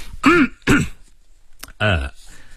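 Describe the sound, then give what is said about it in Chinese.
A man clears his throat in a few gruff, voiced bursts with brief pauses between them. The sound stands alone, with no speech around it. “他清了一下喉咙，接着说道，”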